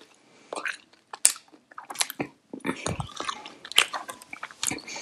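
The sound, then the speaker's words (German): Chewing and crunching of a sweet, lemony snack during a tasting, with irregular soft bites and wet mouth sounds coming in quick clusters and short pauses, fairly quiet. “Okay, dann esse ich mal.”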